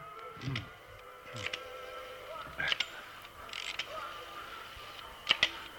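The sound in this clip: A telephone being dialed, heard as faint mechanical clicks and creaks in a few scattered bursts over low background noise, with sharper clicks near the end.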